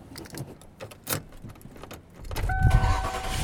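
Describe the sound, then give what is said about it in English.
Car interior sounds while driving home through a neighborhood on a warm day: scattered clicks and light rattles, then a low engine rumble that swells at mid-clip and holds to the end, with a thin faint tone above it. “And I am driving home.”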